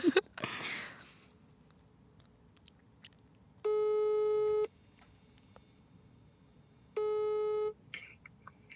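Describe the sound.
Ringback tone on a phone during an outgoing call to an ex: two steady, mid-pitched buzzing tones, each about a second long, separated by several seconds of near silence, after a brief rustle at the start.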